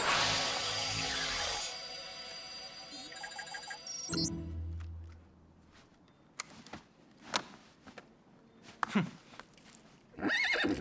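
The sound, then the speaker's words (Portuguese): A horse whinnies loudly, a circus horse's neigh that fills the opening seconds, then gives way to quieter scattered clicks and knocking sounds. “Cavalo de circo. Cavalo de circo!”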